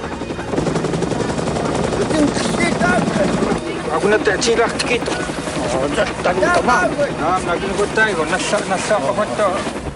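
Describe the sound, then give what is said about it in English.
A helicopter descending toward a small village, its rotor and engine producing a loud, continuous, dense rumble with rapid chopping texture throughout. “They watch the chopper descend.”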